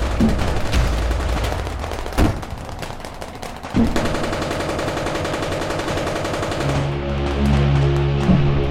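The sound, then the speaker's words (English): Tanks firing their guns at an approaching ship: a rapid, rattling barrage broken by two heavier booming blasts, then steady low tones take over near the end. “They fired at the approaching ship. No! We all jumped to the ground and covered our ears as the tanks held the ground.”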